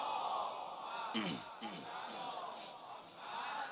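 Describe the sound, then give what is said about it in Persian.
A large crowd at a religious gathering chants the salawat blessing in unison, a loud, dense mass of voices swelling and holding as one continuous roar. “امام باقر، امام جواد، بارک الله آفرین، سلامتیش سلامات بفرست.”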